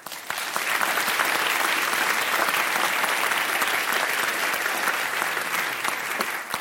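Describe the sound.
Applause from an audience greeting a speaker: a quick swell into full, steady clapping that holds evenly throughout, without voices.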